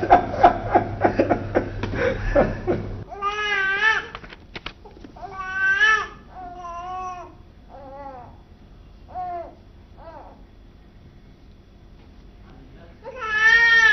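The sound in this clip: A baby cries in a drama scene, a string of short wailing bursts with pauses between them, following a stretch of talk at the start.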